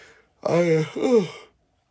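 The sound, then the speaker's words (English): A voiced yawn in the morning: a drawn-out vocal sound of about one second in two swells, the second bending in pitch, then silence. “I'm sorry. So rude of me this morning, yawning and coughing.”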